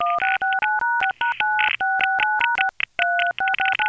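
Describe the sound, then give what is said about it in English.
Touch-tone dialing beeps on the New York City telephone network: many short two-tone bursts in quick runs, separated by brief gaps, loud and clear with no voices. “Ah, to hear the sounds of the New York City network for just a moment.”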